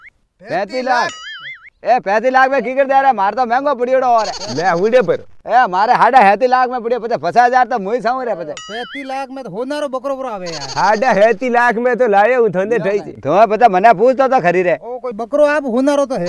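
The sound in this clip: A male goat offered for sale bleats again and again in loud, wavering, quavering calls, many bleats following in a near-continuous sequence with only brief gaps between them.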